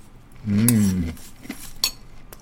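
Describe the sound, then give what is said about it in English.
A spoon clinks against a bowl while someone eats a dry, savory cereal-like food with no milk, giving a couple of sharp metallic clicks and some soft scraping. “so eating it with a spoon like this is really cool. Like, there's no milk or anything in it, but it's like eating a savory cereal.”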